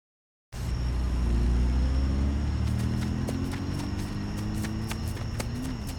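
A car drives off, its engine a steady low rumble that stays loud for the whole clip, with faint, sharp clicking ticks in the later seconds.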